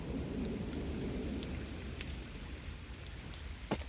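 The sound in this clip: Steady rain falls in a dense, continuous hiss with scattered drop impacts, and one sharper tap stands out near the end.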